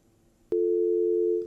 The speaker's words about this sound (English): That call is probably dropped out.